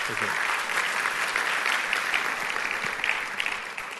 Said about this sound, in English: But it's great to have you with us. Let's give Simon a warm welcome.